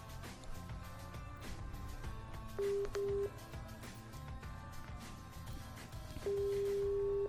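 Telephone line tones sound as a call is placed: a couple of short beeps, then a long steady ringing tone near the end, all faint over a low background hum.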